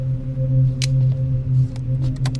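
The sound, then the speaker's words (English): Someone being cut loose from their bonds in an audio drama: a few sharp, scissor-like snips and clicks over a low, steady droning hum. “He cut her loose!”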